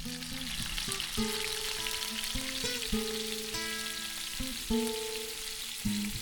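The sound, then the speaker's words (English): Food frying in a pan gives a continuous bright crackle and hiss of sizzling, with sustained musical tones playing softly underneath. “and Frying Sounds from Cosmission, The Process of Cooking, Frying, and that's from Freesound.”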